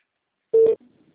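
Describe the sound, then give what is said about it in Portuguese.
A single short, steady telephone tone while a call is dialed, loud and alone, followed by a brief faint rustle. “eu ligo direto, então.”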